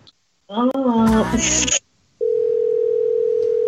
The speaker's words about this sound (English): I don't hear her ringing, do you? Oh, there we go. We need some dialing music, right?